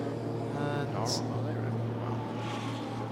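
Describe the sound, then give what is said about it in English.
A Porsche sports car with only its running lights on comes down the pit lane in WeatherTech Sports Car Championship practice at the Roar, its engine a steady, unbroken drone under men's commentary. “Oh, car coming into the pit lane with no headlights on at all. That's the AO Porsche”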